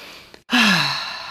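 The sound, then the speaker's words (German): A deep breath in, then out through the mouth during a guided gratitude exercise: a faint, brief inhale, a short pause, then a louder, longer breathy exhale with a slight voiced tone that falls in pitch as it fades. “Dafür schließe einmal die Augen, atme einmal tief ein und über den Mund wieder aus.”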